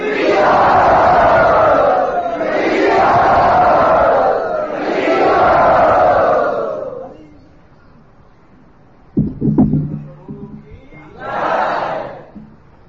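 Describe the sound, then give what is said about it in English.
Temple audience at Radha Gopinath Temple loudly welcoming a guest speaker: three long swells of loud crowd shouting and cheering, then a quiet stretch with a few knocks and one shorter burst of voices. “let us all very, very enthusiastically and loudly welcome Dutakarma Prabhu to our Radha Gopinath Temple”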